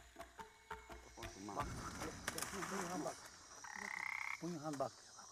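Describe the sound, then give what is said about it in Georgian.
A frog croaking, caught in a jungle forest, giving a few short rasping croaks and then a longer buzzing croak, faint and mixed with a person's voice. “მოკლედ, ჯადოსნური ბაყაყი დავიჭერეთ.”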